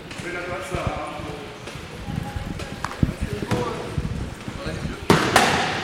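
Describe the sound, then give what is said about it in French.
Wheelchair rugby training for a mixed team in a gym in Mérignac: wheels roll over the wooden parquet and chairs knock together at speed, giving a busy run of sharp knocks with a few louder collisions, under talk. “Ce jeudi soir d'entraînement, les roues fusent sur le parquet d'un gymnase de Mérignac. Les fauteuils s'entrechoquent à toute vitesse, le ballon passe de main en main.”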